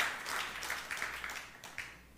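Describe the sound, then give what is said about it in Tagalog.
A church audience applauds for the Lord with faint, loose clapping that swells and fades in uneven waves. “palakpakan po natin yung Panginoon. Hallelujah.”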